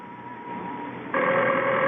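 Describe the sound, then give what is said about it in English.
A telephone rings in a home during a safe-cracking holdup: a faint tone at first, then a loud, steady electric ring that cuts in about a second in and holds to the end. “I know it's the phone.”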